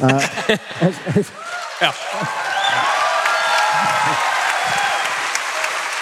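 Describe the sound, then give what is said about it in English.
Audience applause at a live show at the Ryman. A man's speech comes first, then steady, sustained clapping swells in and holds at an even, fairly loud level. “has applause for God, guys. Yeah, guys. Give it up for God.”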